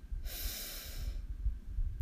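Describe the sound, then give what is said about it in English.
A deep, slow breath drawn in during a guided meditation: one long airy hiss lasting about a second, fairly loud and alone, then quieter breathing with no talk. “And let's take a deep breath in together. Breathe in”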